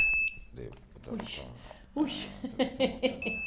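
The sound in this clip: A high, thin electronic beep blares in headphones, heard briefly at the start and again at the very end, while people talk through the middle.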